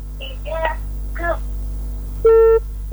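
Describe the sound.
A telephone line's disconnect tone as a call cuts off. Faint fragments of a voice come first, then one loud, steady, high beep, and a second beep begins at the very end.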